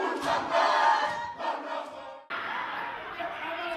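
A group performs a Māori haka with loud, forceful shouted chanting in bursts. A brief break comes just past two seconds, then a sustained, even chant follows.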